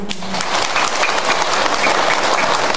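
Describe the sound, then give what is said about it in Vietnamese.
An audience applauding at a Buddhist dharma talk: a steady, dense wash of clapping that stays loud throughout without pausing. “Rồi vỗ tay rồi đó nha”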